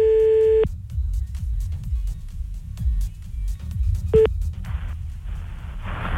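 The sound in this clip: A steady telephone line tone sounds when a prank call is placed again. It is followed a few seconds later by one brief second beep, with low background rumble in between.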